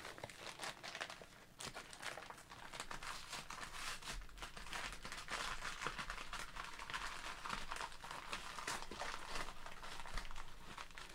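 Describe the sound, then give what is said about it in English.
Crinkling and rustling of a padded envelope with a book inside as it is handled and opened: a continuous, fairly loud papery crackle with small pops and tearing textures, no voices. “I am making an untoward amount of noise with the envelope for those of you who are listening on the podcast, so you actually know there's something going on.”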